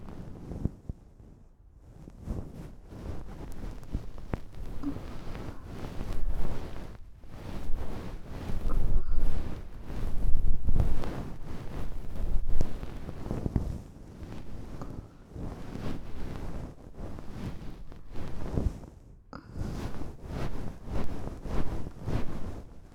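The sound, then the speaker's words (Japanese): A fluffy bonten ear-cleaning puff is brushed over the ear for finishing, making soft, breathy rustling and swishing that swells and fades over many strokes, fairly loud. “じゃあこっちも仕上げにかかっちゃいましょうか。ボンテンを使ってっと。”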